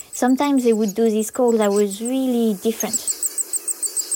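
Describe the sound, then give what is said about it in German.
A parent bird alone with its eggs in the nest gives an unusual call, a rapid run of short high-pitched notes repeated evenly many times, following a stretch of speech. “Und da habe ich gemerkt, dass manchmal, auch wenn nur ein Elternteil allein mit den Eiern im Nest war, es diese Laute geäußert hat, die ganz anders klangen als sonst.”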